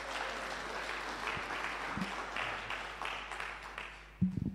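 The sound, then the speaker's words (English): Applause from an audience welcoming a speaker: soft, continuous clapping throughout, with a few low thumps and a louder one near the end. “So let's welcome, put together your hands, and let's welcome Mac.”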